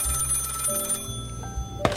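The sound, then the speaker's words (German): A telephone rings in a detective office, a faint electronic ring with steady tones that continues through the whole short moment, with no voices present. “Unsere beiden Detektive wollen gerade nach Hause gehen, als plötzlich das Telefon klingelt.”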